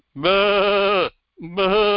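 A sheep bleats twice, loud and clear, in a wavering, strongly voiced cry. The first bleat runs about a second, and after a short pause a slightly shorter second one follows.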